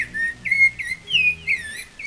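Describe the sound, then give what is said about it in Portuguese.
A rufous-bellied thrush (sabiá) sings a series of clear, high whistled phrases, each a short melodic run separated by brief pauses, ringing out alone over a low steady hum with no talk. “É, essa é a vantagem aqui dos sabiás, né? Sabiá sempre cantando aí”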